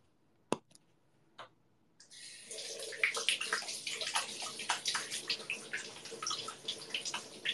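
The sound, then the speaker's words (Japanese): Running water from a tap splashes steadily as hands are washed under it, a continuous bubbling rush with many small splashes, preceded by a couple of brief knocks in near silence. “お手手洗いの音”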